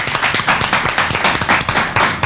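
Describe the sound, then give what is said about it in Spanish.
Applause for radio stations at a celebration: dense, steady clapping from many hands, loud and sustained throughout with no voices. “un aplauso para estas radios también.”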